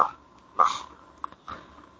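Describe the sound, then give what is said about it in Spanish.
Small dogs barking outside a house, a few short, faint yips spaced apart with quiet between them. “si alguien está escuchando muchos ladridos de perro en estos momentos, hay una gran cantidad de perros chicos que están ladrando afuera de mi casa.”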